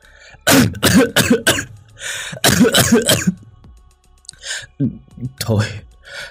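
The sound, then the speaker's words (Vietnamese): An old woman's violent fit of coughing, acted by a voice: loud clusters of harsh, hacking coughs, then fainter rasping coughs and breaths near the end. “Bà Tâm ho sặc sụa mấy tiếng”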